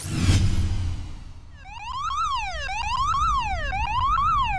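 Electronic alarm siren effect sounding a cortisol alert: a quick sweeping whoosh opens it, then three loud wails that climb and fall in steady repeating cycles.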